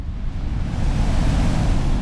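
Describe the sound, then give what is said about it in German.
Sea waves wash against a coastal village that is losing ground to the sea, a continuous low, rumbling surf mixed with wind noise, sustained for two seconds with no talk. “Jacob Avotokpo blickt aufs Meer. Sein altes Dorf liegt darin und das neue vielleicht bald auch.”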